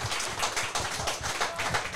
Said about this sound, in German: Mal einen Applaus für die Sabrina.